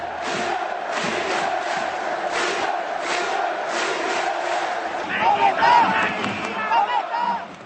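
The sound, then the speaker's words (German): Czech ice hockey fans of two winning teams chant beneath an arena roof: a dense, loud crowd roar with rhythmic, repeated shouted calls that keep a steady pulse throughout. “Ja, sie hallen wieder laut und rhythmisch unterm Hallendach, die Anfeuerungsrufe der tschechischen Eishockey-Fans.”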